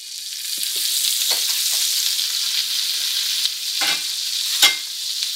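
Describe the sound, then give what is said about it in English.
Butter sizzling as it goes into a hot pan: a steady, bright frying hiss runs throughout, broken by a few brief scraping knocks as it is stirred. “So the butter's going in.”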